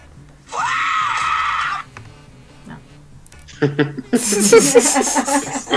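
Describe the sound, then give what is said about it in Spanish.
A human scream rings out, loud and high-pitched, rising briefly and then held for over a second. After a short gap, people talk in a lively, busy stretch of voices. “Qué buen grito.”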